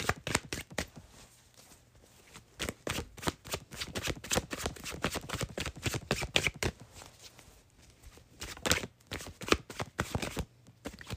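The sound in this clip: Tarot cards are shuffled in many quick papery riffles and flicks, in an irregular rhythm with short pauses, fairly quiet and free of talk.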